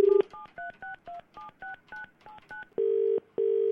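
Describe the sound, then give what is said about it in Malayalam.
Touch-tone telephone dialing to call someone: a short opening tone, then a quick, even string of paired keypad beeps, followed by two long, steady ringing tones. “നമുക്ക് ആളിന്ന് വിളിച്ചു നോക്കിയാലോ.”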